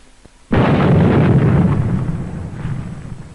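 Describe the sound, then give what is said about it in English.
Dynamite blasts 50-foot pressure ridges of ice during a 1946 US Navy Antarctic expedition, set off by Navy demolition teams. A single loud explosion hits suddenly, then a heavy roaring rumble slowly fades over about three seconds. “The call goes out for dynamite crews, Navy's trained demolition teams, seasoned on enemy beaches. They must blast the 50-foot ridges, clear the way to meet the expedition timetable.”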